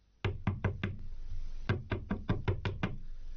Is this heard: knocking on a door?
yes